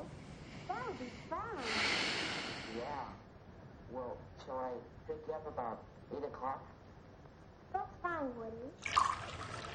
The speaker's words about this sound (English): She gets up and pours herself a glass of water in the dark kitchen.